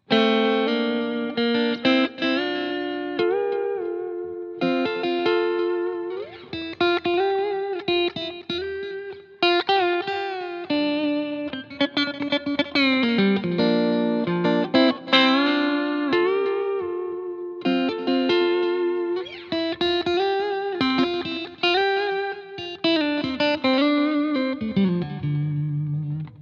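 Electric guitar melody played on the neck pickup, a warm, full tone carrying sustained notes and occasional bends in short phrases with brief pauses between them, colored by reverb and chorus-like effects.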